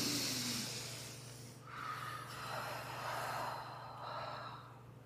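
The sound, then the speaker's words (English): A few slow, airy deep breaths taken during a calming practice, each one swelling and easing. They are fairly faint over a steady low hum. “A deep breath, a turn to curiosity instead of reaction”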